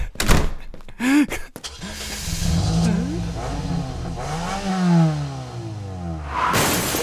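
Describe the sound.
A car door clunks shut with a few sharp knocks, then the engine revs in wavering, surging pulls as the car backs out of a driveway near an azalea bush around midnight.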